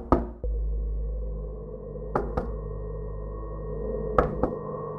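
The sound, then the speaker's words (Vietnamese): Sharp knocks on a wooden floor late at night, coming in three closely spaced pairs separated by short gaps, over a steady low humming drone. “Từng hồi ba tiếng gõ xuống sàn vang lên. Là cái gì đang gõ?”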